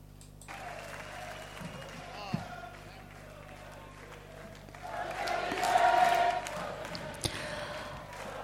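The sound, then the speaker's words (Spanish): Faint applause from a group swells up in the middle of the moment and then fades, with people talking around it. “Bueno, sirvan estos aplausos.”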